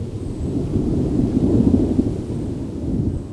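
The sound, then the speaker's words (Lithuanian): Low, rolling thunder rumbles continuously through a literature seminar's opening, a deep, steady roar that swells slightly in the middle and then settles, with no talk over it. “Toks tad mislingo griaustinio kontrapunktas palidėjo Mindaugo Kvietkausko įvadinį žodį literatūros salose.”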